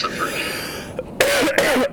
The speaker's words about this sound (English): Excuse my coughing, by the way. I was literally after that last episode, I got sick. Go figure. So I'm kind of like I have my cough now.